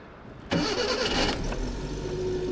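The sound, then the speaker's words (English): A minivan's small three-cylinder, 43-horsepower engine starts with a sudden burst after a quiet half-second, then runs on in a steady, moderately loud idle. “Let's start with the Sunshine's little three-cylinder engine. 43 horsepower.”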